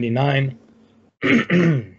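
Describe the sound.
Throat clearing from a man: a few short, voiced, rasping bursts, one longer and then two quick ones close together, fairly loud and with no talk over them.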